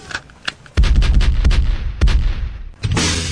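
A gunshot sound effect: three heavy, booming blasts, each cracking sharply and trailing off in a long rumbling decay, preceded by a couple of faint clicks.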